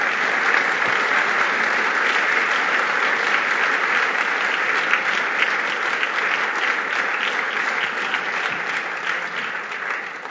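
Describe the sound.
Audience applause welcoming Ontario PC leader Patrick Brown as guest speaker, a dense, steady wash of many hands clapping that holds at an even, loud level for about ten seconds and eases only slightly at the end.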